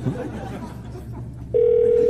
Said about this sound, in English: Phone's ringing a lot.